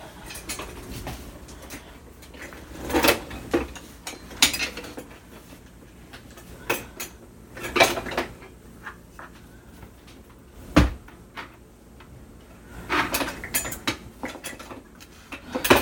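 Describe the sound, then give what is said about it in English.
Cans of tomato products and beans are handled in a kitchen, giving intermittent metallic knocks, clinks and clattering thumps at an irregular pace, moderately loud, with no talk. “And we have lots of cans over here, as you can, as you will be able to hear. And these cans will contain tomato products and beans.”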